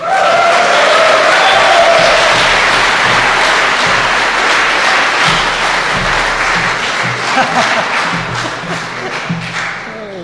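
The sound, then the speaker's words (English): A rowdy crowd gives a loud, big Irish welcome to a speaker with applause mixed with whoops and cheers, strongest at the start and gradually tapering over several seconds. “Guys, please put your hands together and increase the volume. A big Irish welcome.”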